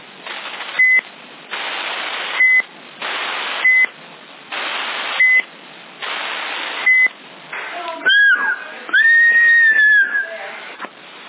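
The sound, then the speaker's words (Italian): Electronic roger beeps on a CB radio channel in Sassari: five short, high beeps, each closing a burst of static-filled transmission, followed by a few warbling, wavering electronic tones near the end. “Che è questo bip?”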